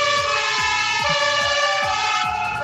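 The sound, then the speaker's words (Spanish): Several fire engine sirens from fire trucks at a ceremonial honors formation in Temuco wail loudly and continuously. Repeated falling sweeps are layered over steady high tones, with no talk. “Cuando comienza el ulular de las sirenas”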